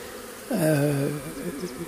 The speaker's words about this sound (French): il y a une grande quantité d'abeilles qui est devant la ruche, qui va et qui vient, qui sort de la ruche, qui rentre, qui rapporte du pollen.